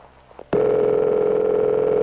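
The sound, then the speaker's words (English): A telephone tone from a test line in a phone company office, dialed from a studio: a few faint clicks, then a loud, steady electronic tone that holds unbroken to the end. “that's just our test number in the phone company office, you see. That's ringing.”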